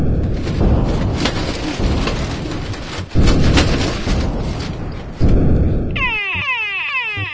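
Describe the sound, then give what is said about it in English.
Asteroids hitting and blowing up a spaceship: long, noisy booming rumbles broken by two sharp fresh blasts, then a warbling alarm near the end. “You don't want the asteroids to blow up. You want your ship to blow up. What? But that will hurt. Exactly. Just let those pieces of rock hit you.”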